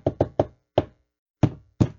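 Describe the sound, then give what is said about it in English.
Six sharp knocks on a door: three quick raps, a single knock after a short gap, then two more after a longer pause. “Are going to knock, then start singing. Then start singing when she answers the door. Knock and then. But real quickly, just like knock, knock, knock, and then.”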